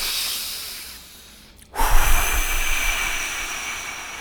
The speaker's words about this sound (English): So we model and we invite, and we might model doing some dragon breath